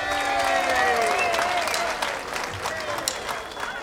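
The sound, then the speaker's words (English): An audience applauds to welcome a performer on stage, a dense, loud wash of clapping that holds steady and then thins and softens during the second half. “let's put your hands together and welcome our next original member to perform here tonight.”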